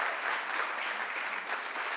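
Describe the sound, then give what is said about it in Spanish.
Applause from a church audience, a dense, steady wash of clapping that holds at an even level throughout with no single voice standing out. “Denle un aplauso a Jonathan, que le mojé los pies.”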